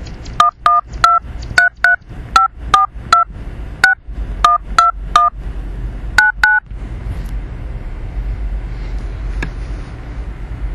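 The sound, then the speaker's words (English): Touch-tone keypad beeps dial a number on a prepaid calling-card phone service: a quick, evenly spaced run of loud two-tone presses, a short pause, then two more, followed by faint line hiss. “Please enter the telephone number you wish to dial now, or press *0 to recharge.”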